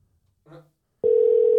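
A telephone call rings out: after near silence, a loud, steady, unbroken ringing tone starts about a second in and holds at constant pitch to the end.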